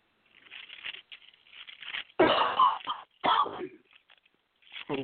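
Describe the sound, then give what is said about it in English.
Coughing from someone during a Bible reading in a sermon: two loud, rough bursts stand out between stretches of quieter, murmuring talk. “somebody's coughing.”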